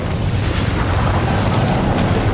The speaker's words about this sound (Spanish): El chorro se incendia y quema el barco griego que tiene cerca. El fuego se propaga por el chorro hasta el interior del buque y le hace explotar.